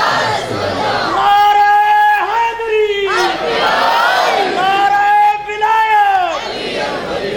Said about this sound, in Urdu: نعرہ تکبیر، ایسے نعرہ نے لگائے، زور سے نعرہ لگائے، نعرہ تکبیر، نعرہ رسالت،